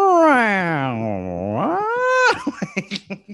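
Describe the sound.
A man's voice imitates a cat's meow: a long, wavering, nasal call dips low, then rises, then breaks into a quick run of short, choppy staccato bursts.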